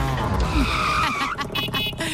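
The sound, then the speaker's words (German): Tuk-tuk driving sound effect for a radio morning show: a busy engine rattle with revving and squealing tires, loud and continuous throughout. “Achtet Montag in Deutschlands Big Star Morning Show zwischen 7 und 8 aufs Tuk-Tuk im Programm zwischen 2 Songs. Das klingt so.”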